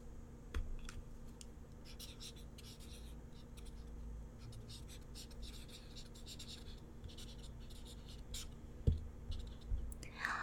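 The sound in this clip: Handwriting with a pen on paper: soft, continuous scratching strokes with small taps, quiet throughout, with a couple of sharper knocks near the end.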